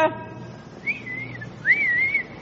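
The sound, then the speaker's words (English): A wolf whistle aimed at a woman: two whistled calls, a shorter one followed by a longer one that sweeps sharply upward and then holds a high, steady tone, with no talking. “was the kind of girl men whistle at”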